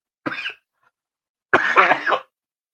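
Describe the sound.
A man with a dry throat coughs twice: a short, sharp burst, then after a pause a longer, rougher cough that rasps on for most of a second.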